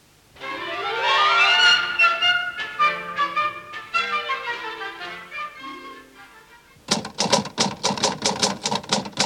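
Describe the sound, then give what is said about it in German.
Typewriter keys striking as a letter is typed in an office: a rapid, regular run of sharp clacks follows a stretch of tonal, melodic music. “Was tippen Sie, Fräulein Schulz? Was schreiben Sie? Oh, ich schreibe einen Brief.”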